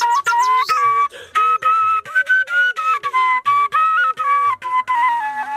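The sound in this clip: Breathy flute melody from a shepelai, or drawi, played by a long-time player in a village in a green valley of Khwaja Omari district. Held, wavering notes run in short phrases separated by brief breaths, fairly loud and alone.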